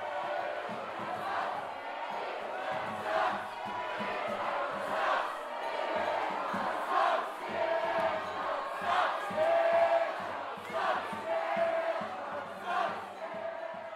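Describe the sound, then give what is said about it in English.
A crowd of team members chanting in unison as a joke, rhythmic shouted pulses repeated many times over a busy, noisy din of voices. “If you hear people chanting, sucks, after Snitchcock, don't worry.”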